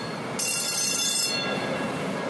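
A light rail commuter train runs through a public plaza in Beaverton, giving a steady, loud rolling roar. Shortly after the start, a bright high hiss or whine joins in and holds to the end.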